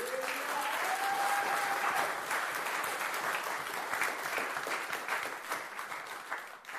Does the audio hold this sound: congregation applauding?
yes